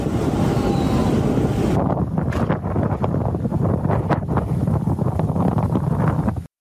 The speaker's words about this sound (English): You may recognize that is the sound of a tornado.